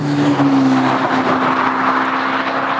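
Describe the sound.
A GTC4 Lusso T car with a 610 hp turbocharged V8 engine gives a loud, steady engine drone. Its pitch stays nearly constant with slight wavering throughout, and no voices are heard.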